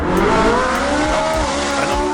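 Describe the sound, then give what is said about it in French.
A very large Ferrari sports car engine roars loudly and continuously, a dense, harmonic-rich tone that wavers slightly in pitch with no pauses and no talk. “Une très grosse Ferrari, ça.”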